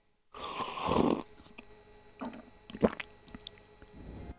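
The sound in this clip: Sipping and swallowing dissolved aojiru green juice: one longer slurping draw, then a few soft gulps and small wet mouth clicks, all quiet.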